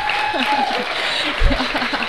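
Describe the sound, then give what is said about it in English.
Audience applause after a comic reading, a steady burst of clapping with voices and laughter mixed over it and a low thump near the end. “He'll like it that you applauded for that.”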